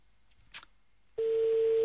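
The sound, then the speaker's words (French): A telephone ring tone on a call to the Orangina company line: a single click, then a steady, loud, even tone begins partway through and holds unbroken to the end. “Donc c'est parti, appelons directement Orangina à 8h du mat. Il devrait, oh, voilà, il devrait être là.”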